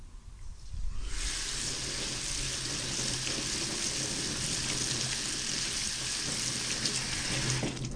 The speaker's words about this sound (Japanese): 炊いたご飯はザルに入れてさっと水洗いします。